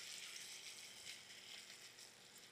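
Chestnuts sizzling in olive oil in a pan make a faint, continuous hiss with small irregular crackles, steady throughout and without talk.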